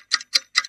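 Three evenly spaced, crisp ticks of a clock, each a bright, sharp click with a slight double attack, alone against silence.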